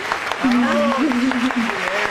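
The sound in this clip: Short burst of clapping as sports show hosts stand to applaud a female athlete from the Pan American Games, with a voice carrying over the hands throughout.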